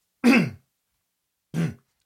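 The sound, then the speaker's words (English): Someone clears their throat twice: two short, rough bursts with a pause of about a second between them, heard alone with no talk. “Hold on one second. I cannot get my throat clear.”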